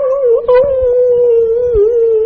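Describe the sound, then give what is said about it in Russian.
Two puppies whimper outside a house, giving one long, loud, steady whine with strong harmonics. The pitch wavers slightly and dips briefly near the end, over faint low scuffling. “к дому прибилось два щенка. С разных собак. Откуда они взялись, непонятно. И начали скулить под этим.”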